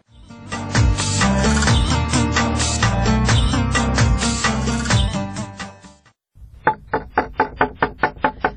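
Knocking on a door: a rapid, evenly spaced run of sharp knocks that begins right after loud music stops abruptly.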